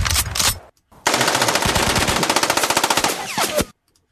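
Machine-gun sound effect: a short opening burst, a brief gap, then a long, rapid string of many evenly spaced, loud shots that cuts off sharply into silence.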